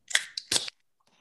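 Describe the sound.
Two cans of 8.5 percent beer cracked open in quick succession: sharp pops, each running into a brief fizzing hiss, then near silence.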